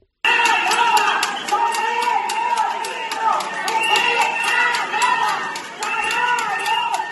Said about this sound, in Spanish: Ese era el sonido de la concentración